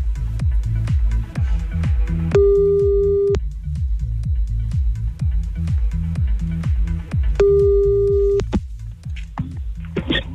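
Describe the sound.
Ringing tone of an outgoing telephone call: two long, steady tone bursts about five seconds apart, each lasting about a second, over a continuous rhythmic music bed with a beat.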